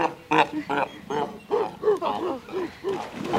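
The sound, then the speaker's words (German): Seals give many short, hoarse barking calls in an uneven rhythm, each one a brief rising and falling bark, loud and close together. “Na ja, das sind die Robben oder Seehunde, nicht?”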